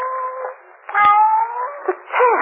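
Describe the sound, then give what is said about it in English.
A cat meows after being freed from a container sealed shut with putty, giving several drawn-out, wavering meows that bend in pitch, with a short knock partway through. “Well, the prodigal cat returns.”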